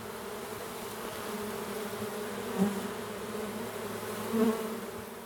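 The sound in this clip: Honey bees buzzing around hives by a pond, a steady dense drone with a couple of brief louder swells as individual bees pass close.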